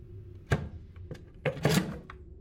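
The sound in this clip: A few sharp wooden knocks and scrapes come as a container holding a brooch and a dagger is carefully opened, with quiet pauses between the clunks.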